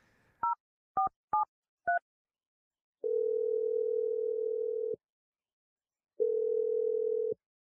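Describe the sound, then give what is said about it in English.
A telephone number being dialed: four short two-tone keypad beeps, then two long, steady ringing tones separated by a pause, with no voices. “here, I'm dialing his number right now.”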